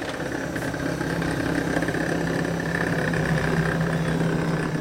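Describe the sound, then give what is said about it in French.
Mechanical hum of conveyor carriages suspended from rails, running deep beneath the four Tolbiac towers of the Bibliothèque nationale de France in Paris. A steady, even rumble carries a faint tonal whine throughout, with no voices. “Enfouis sous les quatre tours de Tolbiac, dans le 13e arrondissement de Paris, les entrailles immenses de la Bibliothèque nationale de France engendrent inlassablement leur cortège mécanique de nacelles suspendues à des rails”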